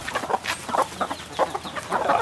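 Chickens cluck as they peck wildly at bread: a flock of hens gives many short, rapid clucks in uneven bursts at moderate loudness, with no talk.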